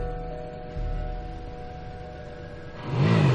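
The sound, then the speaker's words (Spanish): A motorcycle engine hums beside a car stopped on the road shoulder, then swells into a louder rising roar at the end as it accelerates past. “El motorista acelera, pasa junto al coche de Anclara.”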